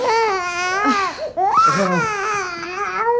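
A baby cries in sustained, high, wavering wails, breaking off briefly around the middle before crying loudly again. The crying stays continuous and fairly loud throughout.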